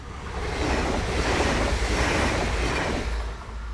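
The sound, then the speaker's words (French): A train from Pau passing by: a broad rushing rumble that swells to a sustained roar through the middle, then eases off toward the end. “Il y a un train qui passe, là, je l'entends, il vient de Pau, il fout le camp.”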